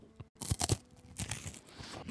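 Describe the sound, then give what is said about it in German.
Crisp bites into a crunchy Ahead wafer bar give a quick run of faint cracking crunches over about two seconds, with no talk. “Ich habe nämlich gerade in die brandneuen Wafer Bars von Ahead gebissen”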